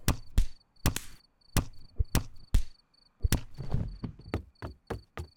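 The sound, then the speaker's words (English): Sharp, loud impact thuds of punches in a fistfight, including a right hook and an uppercut, coming as many blows in quick, irregular bursts with brief pauses between them. “he can throw a mean right hook. I just hope he liked my uppercut.”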